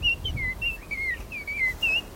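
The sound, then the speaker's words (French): A nightingale sings alongside a blackbird: a quick series of faint, high, thin whistled chirps and short trills repeating every fraction of a second over soft low background noise, heard alone. “Il est bon aussi le rossignol qui chante derrière. Il chante bien.”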